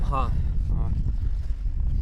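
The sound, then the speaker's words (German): Strong wind buffets a microphone on a high mountain summit dome, with gusts reaching 380 km/h. A loud, continuous low rumble roars throughout, with a couple of brief vocal sounds near the start. “Ich versuche das Mikrofon ein bisschen vor dem Wind zu schützen.”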